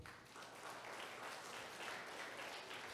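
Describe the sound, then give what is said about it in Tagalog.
A church audience applauds in a dense, even wash of clapping that lasts the whole clip at a faint, steady level. “Palakpakan po natin ang Lord.”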